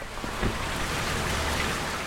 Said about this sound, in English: Only this day, it's raining.